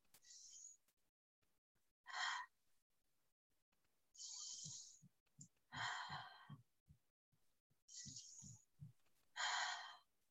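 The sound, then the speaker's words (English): Continuous breathing, in through the nose and out through the mouth, as a steady cycle of six faint airy breaths with short pauses between them, some with a soft hazy exhale. “in through the nose and out through the mouth, but it's a continuous breath. So it's going to look and sound like this.”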